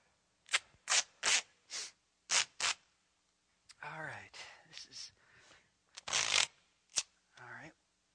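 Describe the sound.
Duct tape being pulled and handled, with several short, sharp ripping bursts in quick succession, then a voice talking with a few more tearing sounds mixed in.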